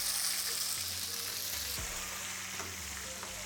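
Oil sizzles and crackles in a pan as it heats, just before seasoning goes in. A steady, fairly faint hiss with fine crackling runs through the whole clip, with no voices.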